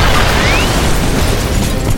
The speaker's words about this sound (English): Someone was firing missiles at the huge airplane. It hit the undercarriage, blasting half of it to wreckage.